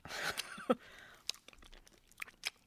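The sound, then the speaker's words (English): Ketchup-flavoured hard candy crunches between the teeth, with a few sharp, crisp bites scattered among softer chewing and mouth noises at a fairly low level. “Ketchup candy. Are we ready? Yes. Okay. Let me open mine up. Oh, okay. And here we go. Pop it in.”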